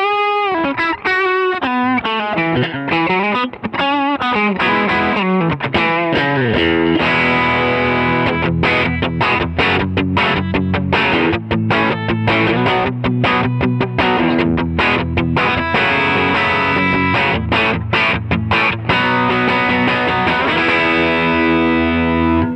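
Overdriven electric guitar through an OD2 overdrive pedal, set a little brighter with less mid and more gain than usual. Loud, gritty single-note lines give way to dense, rhythmic chords that continue steadily with no talking.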